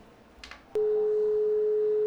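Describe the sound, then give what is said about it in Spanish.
Telephone line tone: a click followed by a steady, unbroken beep that holds at one pitch to the end, preceded by faint noise. “Ahí está el teléfono. Vamos al teléfono, son las 11:07.”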